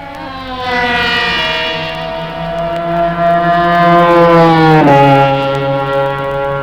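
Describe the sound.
Kreidler racing motorcycles passing the start and finish line: a loud, sustained, high-pitched engine whine with strong harmonics that drops sharply in pitch as a machine goes by.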